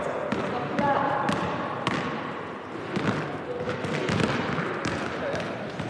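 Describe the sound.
A basketball bounces at a wheelchair basketball training session, with many hard rhythmic thuds repeating throughout under ongoing talk.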